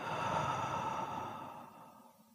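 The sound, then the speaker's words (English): A single slow, soft breath released through the mouth, one steady sigh that gradually fades away, with no voice over it. “Take a slow breath in through your nose and out through your mouth.”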